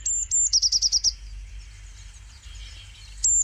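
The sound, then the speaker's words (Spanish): A Eurasian blue tit calls: high, thin notes open, followed by a quick run of seven sharp chirps, then a quieter pause and one more high note at the end, with no voices. “¿herrerillo común? Pues la verdad es que sí.”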